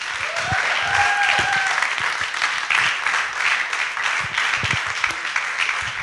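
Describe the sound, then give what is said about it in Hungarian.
An audience at a church evening applauds loudly to welcome a guest preacher, with sustained, dense clapping throughout and a brief whistle near the start. “Kérlek benneteket, tapsuljuk meg!”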